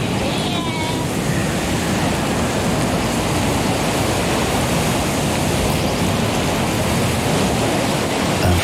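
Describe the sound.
Sea waves wash against the coast between Collioure and Port-Vendres beside a small coastal path as a storm builds. The surf makes a constant, dense, broad rush with no breaks and no distinct voices.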